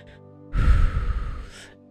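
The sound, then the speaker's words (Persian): A single slow breath during a guided meditation breathing exercise, a soft airy rush lasting just over a second, heard alone without talk. “اینطوری که دم میگیریم یک دو سه چهار نگه میداریم دو سه چهار بازدم میکنیم”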